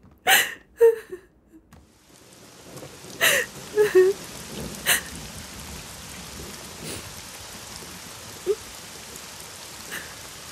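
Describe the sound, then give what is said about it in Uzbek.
Steady rain hissing without a break. A few sharp knocks and thuds come in the first seconds, and an occasional louder drop stands out against the even wash. “Yomg'irni yaxshi ko'raman. Yomg'irda ko'z yoshlaring bilinmaydi.”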